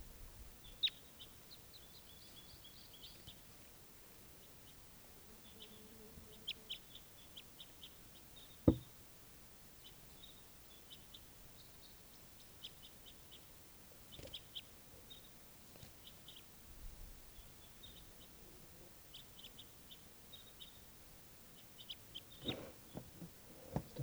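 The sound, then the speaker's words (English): Faint bird calls, short high chirps repeated on and off throughout a quiet stretch, with one sharp knock partway through. “Oh, bird.”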